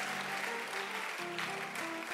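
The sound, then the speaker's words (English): A cooking event audience claps hands for a culinary contestant, fairly quiet, with sharp claps falling in a quick, steady rhythm over sustained musical tones. “Clap your hands for the culinary star.”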